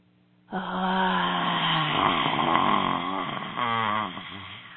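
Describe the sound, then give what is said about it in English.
A deep-breath exercise ends in a long, voiced, hoarse exhale made with the tongue stuck out. The breathy sigh holds steady for about four seconds, dips briefly near the end, then trails off. “that's a deep breath with a sound on the exhale. So you can either be the dragon breath, meaning you stick your tongue out and you stare at something on the wall”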